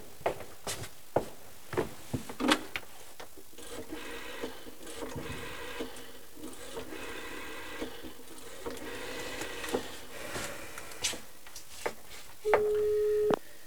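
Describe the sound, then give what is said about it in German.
A telephone is dialled with a run of clicks and mechanical clunks at an uneven pace. A steady, low busy-signal tone sounds near the end. “Wo ist das Telefon? Da drüben.”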